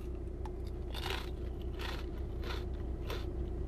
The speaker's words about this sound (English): So these are from France, and these are the turkey flavored Lay's. Let's go ahead and give it a try.